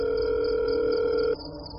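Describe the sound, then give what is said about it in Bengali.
Ringing tone on an outgoing phone call: a steady, even electronic tone holds for over a second, then cuts off, leaving a faint thin hum. “Phone বেজেই যাচ্ছে।”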